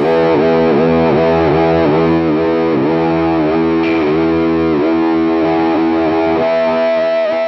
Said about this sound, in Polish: Już sobie kiedyś opowiadaliśmy, co to znaczy, ale profilaktycznie przypomnę, że ruchomym mostkiem można robić takie rzeczy.